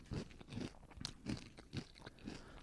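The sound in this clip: Crunching of turkey stuffing flavored wavy potato chips being bitten and chewed, with several loud, crisp bursts separated by short pauses, heard alone without talk.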